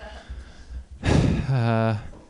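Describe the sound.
A heavy out-of-breath gasp from a comedian on an open mic stage: one loud, breathy rush of air that turns into a short voiced groan, with a quieter low rumble before it.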